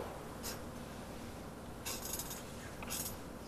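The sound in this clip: Scratchy pen strokes as a rectangle is drawn on a board, a few short scraping runs over a steady background hiss.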